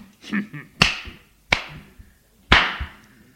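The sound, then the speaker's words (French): Three sharp, crisp slaps on the buttocks ring out with short pauses between them, the last one the loudest, while faint rustling and movement sit underneath. “Il la lâche en lui donnant une tape aux fesses.”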